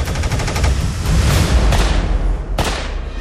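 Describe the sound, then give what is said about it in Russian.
Gunshots from a Soviet TT self-loading pistol come as a few loud, sharp reports with a heavy booming low end, with no talk. “Пистолет ТТ.”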